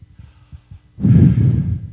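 A breath drawn in during quiet prayerful meditation: a soft rush of air lasting about a second that follows a few faint low thumps, with no talk.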